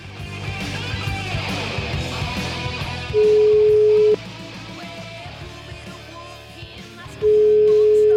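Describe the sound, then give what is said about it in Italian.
A telephone ringing tone on an outgoing call sounds twice, a steady, pure mid-pitched beep about one second long, separated by a long gap, over a quieter, busy background. “Io proverei a fare una telefonatina a questo signor Donia”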